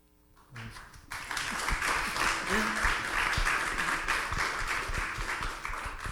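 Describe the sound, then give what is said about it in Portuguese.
Hand clapping and applause from a gathered group at a talk on forgiveness, a dense, steady wash of claps that swells in after about a second and keeps going, with a brief voice just before it. “Estou desenvolvendo minha habilidade de bater palma e segurar o microfone ao mesmo tempo aqui.”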